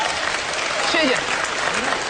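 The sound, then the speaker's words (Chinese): Audience applause from a studio crowd at a televised show, called for to get an amateur opera singer to perform again: steady, dense clapping that fills the whole moment, with a voice faintly heard over it. “谢谢，谢谢您热情的掌声。”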